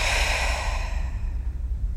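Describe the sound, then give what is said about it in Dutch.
A single deep breath, exhaled as a soft, breathy rush that is strongest at the start and fades away over about two seconds. “En in deze houding ga je even drie keer diep in en uit ademen. Dus in door je neus en uit door je mond.”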